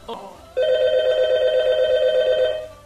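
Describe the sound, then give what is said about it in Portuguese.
A telephone rings for an incoming call with one long, steady electronic ring tone lasting about two seconds, preceded by a brief sound at the start. “Urubu Rasante, terceira ligação da noite”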